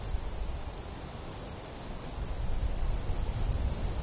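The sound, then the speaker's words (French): Night insects, mostly crickets, in the dry season make a dense, unbroken high trill with faint pulsing, steady and fairly quiet, with no voices. “Donc on entend une biophonie qui est vraiment constituée quasi exclusivement d'insectes. C'est vraiment ce qui est très caractéristique des signaux sonores de nuit”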